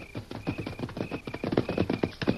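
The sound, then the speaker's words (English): Horses' hooves clip-clop as the animals arrive, many quick, evenly paced hoof beats following one another in a steady rhythm. “Well, them's prime horses. Maybe we can use them. Here's our horses.”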